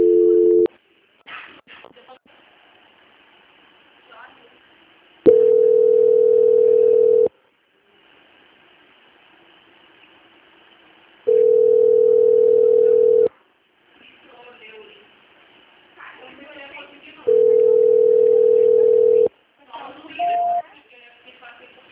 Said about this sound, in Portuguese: Eu tô tentando ligar pra lá, só que lá provavelmente tá ocupado, aí a ligação fica voltando.